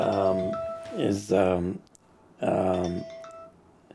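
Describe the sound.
A phone rings during a talk on Copernicus, sounding as a harmonic, tonal ringtone pattern that repeats in a few loud bursts separated by short gaps, with a steady held tone running beneath.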